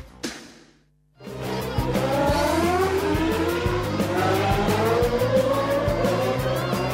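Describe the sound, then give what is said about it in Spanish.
A Formula 1 race car engine from a Williams team car screams at high revs, loud and sustained after a brief sound and a short near-silence, its whine climbing in pitch through several gear changes. “¿Sabes por qué Lubrax suena así en los autos del equipo AT&T Williams de Fórmula 1?”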